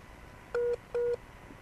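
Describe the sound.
Two telephone dialing tones beep in quick succession while a phone call is being reconnected. They are brief, evenly spaced and steady in pitch, over a low background hiss.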